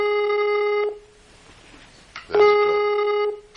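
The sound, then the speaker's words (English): Telephone dialing tones sound as two steady, buzzy electronic tones at the same pitch. A quiet gap of about a second and a half separates the first tone from the second, which is slightly louder. “Oh, now it's dialing.”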